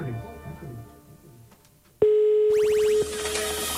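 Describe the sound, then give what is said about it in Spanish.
A telephone ringback tone follows a dialed call: one loud, steady, even tone lasting about a second. It comes after quieter, speech-like murmur and gives way to a hissy wash of noise. “Ya, vamos a llamar. Ya, estoy marcando.”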